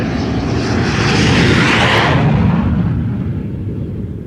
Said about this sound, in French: Nous allons procéder à la manœuvre d'atterrissage de vérification.